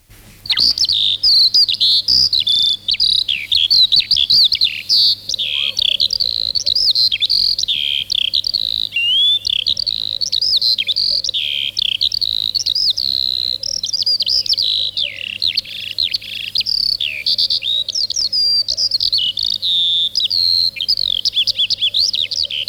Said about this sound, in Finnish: Viljelymaiden lintuja. Kiuru.